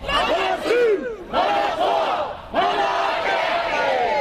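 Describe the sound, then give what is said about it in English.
Hundreds of protesters chant on Parliament's forecourt as new MPs arrive for their 2023 swearing-in, a loud, rhythmic mass of shouting voices in three phrases, each separated by a short break. “What a welcome for the class of 2023 as hundreds of protesters massed on Parliament's forecourt to greet MPs before their first day in the House.”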